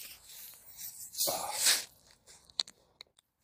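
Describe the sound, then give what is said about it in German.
A plastic bottle of beer is twisted open with a brief fizzing hiss. A few faint clicks and crinkles of handling follow, scattered and quiet. “Jetzt trinke ich noch mal ein Bier”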